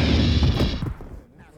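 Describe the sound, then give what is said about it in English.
A loud, dense gunshot blast as Han Solo shoots Greedo from under a table. It roars heavily for almost a second, then quickly fades away. “Rest in peace, Greedo. I can shoot just as well under a table as across one.”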